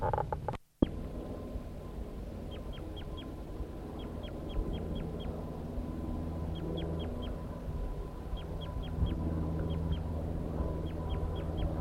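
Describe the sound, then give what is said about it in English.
A wild male bird gives a long bout of short, high flight calls near a female's nest tree. The quick notes come in repeated clusters of a few each, with brief gaps between, over a steady low background hum. “The male gave a long bout of flight calls”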